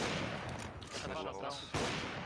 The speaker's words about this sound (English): Shooting me through walls.